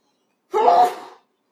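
A single sneeze during an Arabic lecture on jurisprudence: one short, loud, breathy burst lasting well under a second, heard alone against silence.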